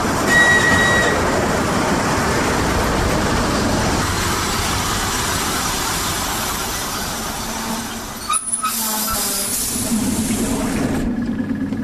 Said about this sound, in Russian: Электропоезд на Воронеж прибывает на второй путь.